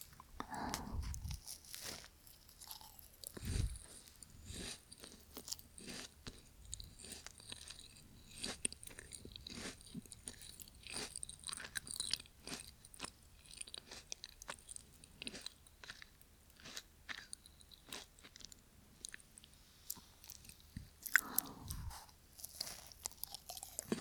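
Steady chewing of food during a meal: many crisp, crunchy bites and mouth sounds repeating across the whole stretch, with no talk over them.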